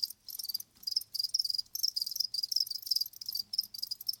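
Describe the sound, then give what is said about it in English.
Cricket-chirping phone alarm tone: rapid, high-pitched trilled bursts repeat in a steady, insistent run of many pulses separated by short gaps, moderately loud and alone, with no talk. “What is that? That's my phone alarm. Crickets chirping?”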